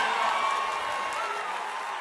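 Audience applause and cheering at a pagode show, a steady wash of clapping mixed with whoops and crowd noise at even loudness throughout.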